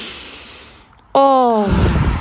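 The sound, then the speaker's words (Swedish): A deep breath drawn in through the nose during a guided breathing exercise: a long, soft airy inhale that fades, then a brief pause and a loud voiced sigh whose pitch falls as it trails into breathy exhalation. “Kan vi bara ta ett djupt andetag med näsan?”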